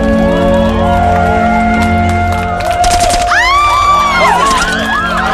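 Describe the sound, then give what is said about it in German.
Gunshots are fired into the air during a Hollywood shootout scene in a radio play: a quick burst of sharp bangs midway over a sustained musical bed, followed by sweeping whoops. “Verdächtige haben Zielpersonen entdeckt und Feuer eröffnet. Nein, korrigiere. Verdächtige schießen in die Luft.”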